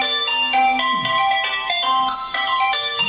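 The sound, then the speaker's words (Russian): A phone ringing with an incoming call: an electronic ringtone plays a bright, repeating melody of clear, steady tones, loud and without talk. “Очередной звонок прерывает наш разговор.”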